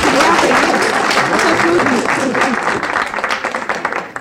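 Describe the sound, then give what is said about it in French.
An audience applauds the victory of a women's team in a quiz game with steady, loud, dense clapping that holds for several seconds and then starts to thin and fade toward the end. “Alors, applaudissons la phrase de Wagner et la victoire de l'équipe féminine.”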